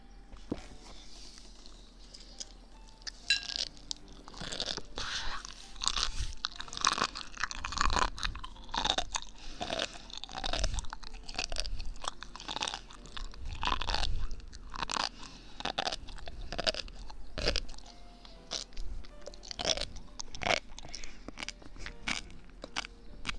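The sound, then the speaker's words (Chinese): Someone eats small pieces of food with steady crunching and chewing, many crisp bites and wet munching sounds repeating densely for over twenty seconds without talk. “再吃一颗啦，最后一颗不吃了，真的不吃了，我真的我不想吃了，再吃最后一口。”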